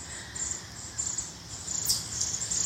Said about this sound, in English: Looks like the birds were called here today too. There's a whole flock of warblers and chickadees